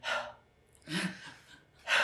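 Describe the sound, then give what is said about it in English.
Soft, audible breathing as a person takes slow, deep breaths in a calming breathing exercise, with a few drawn-out airy inhales and exhales and no talk. “we'll take these nice, long, deep breaths in, and then we go,”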